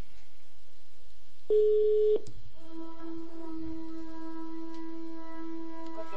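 Telephone tones while placing a call: a short, pure beep is followed by a click. A steady, buzzy dial tone then starts and holds quietly to the end.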